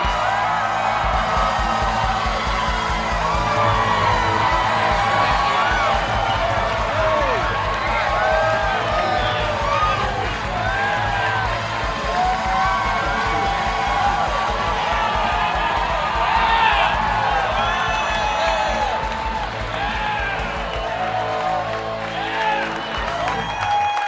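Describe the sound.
An audience cheers, whoops and applauds without a break to welcome Aaron Rodgers onto a Packers Live show. The crowd noise stays loud and dense throughout.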